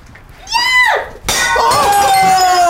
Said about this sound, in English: You can smash that against the wall, even. But I can just throw it, right?